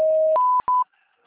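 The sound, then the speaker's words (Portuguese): Voicemail tones sound right after a phone greeting: a steady lower electronic tone steps up to a higher one, breaks off briefly, then returns for a short final beep before silence. “Sua chamada está sendo encaminhada à caixa de mensagens e estará sujeita a cobranças após o sinal.”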